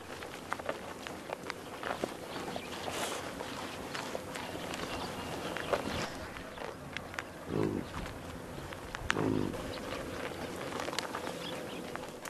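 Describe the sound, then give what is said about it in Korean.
A yak tears tiny sprouts with its lips while grazing on a sparse high-altitude alpine meadow. The ripping sounds come as a steady crisp crackle with a few louder tearing bursts, and no voices are heard. “지금까지 야크가 풀 뜯는 소리였습니다.”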